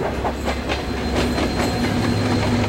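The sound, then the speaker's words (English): A moving train clatters along the tracks, heard from beside a baggage car: a steady, loud rumble with a rhythmic clickety-clack of wheels over rail joints, running without pause and with no voices. “Harry and Nikolai jump from the moving train into the weeds beside the tracks”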